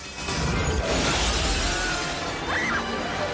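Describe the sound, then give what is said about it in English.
A light fixture is shot out and crashes to the floor, with a sudden shattering burst near the start. A sustained, noisy clatter of debris follows and slowly tapers off. “He shoots out a third light and it crashes to the floor.”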